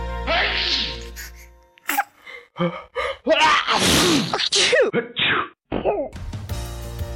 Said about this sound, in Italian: Stavo riflettendo che se per ogni starnuto mettessimo da parte una monetina, almeno io probabilmente sarei diventata molto ricca.